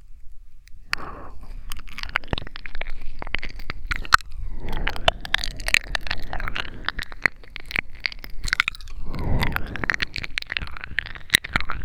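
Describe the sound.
Crunchy chewing and biting of food, with many sharp crackling bites and squishy mastication in an irregular rhythm that runs throughout. The chewing is fairly loud, and no one talks.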